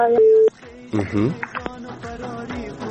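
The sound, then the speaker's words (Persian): A telephone line tone follows a dropped listener call on a phone-in line: a loud, steady mid-pitched tone lasts about half a second, then cuts off as a voice begins talking. “فکر میکنم تماس شنونده ما قطع شده”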